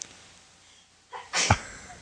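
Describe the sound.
A single human sneeze, preceded by a quick breath in, sharp and moderately loud against a quiet, faint background.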